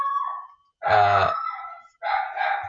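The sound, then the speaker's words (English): A dog gives a few loud, tonal barks with a howling edge, the middle one strongest, separated by short silences, with no other sounds around it. “sorry, that's the dog barking. He's not going to stop barking.”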